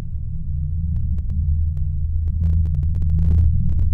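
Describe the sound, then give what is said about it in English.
A continuous low rumble presented as the worldwide hum: a steady, deep, throbbing drone that holds through the whole clip and sounds slightly distorted, with a few faint clicks toward the end. “I was part of the small fraction of people who can hear what is called the worldwide hum, or simply the hum.”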